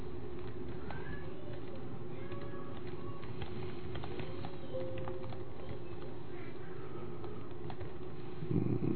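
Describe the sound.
Quick, irregular clicking of keys as someone types on a computer keyboard in a living room, steady and continuous throughout, with soft pigeon-like cooing in the background.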